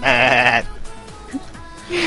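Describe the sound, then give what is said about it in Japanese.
A man's voice imitates a goat's bleat: one loud, wavering, nasal bleat with a quavering tremble. A quiet gap follows, then the start of a second bleat at the very end. “全部おっちゃんだからおっちゃん最後にヤギの真似してね。”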